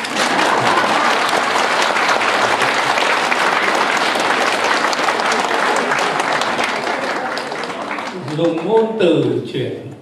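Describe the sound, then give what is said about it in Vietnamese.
Audience applause at a Buddhist dharma talk, dense, continuous clapping for about eight seconds that then thins out as a voice begins singing or chanting near the end. “Vỗ tay.”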